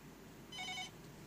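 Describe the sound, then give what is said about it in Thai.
A telephone rings as a listener calls in: one short, bright, high electronic ring rises briefly above a steady low background hum and then stops. “ผู้ฟังโทรมาแล้ว”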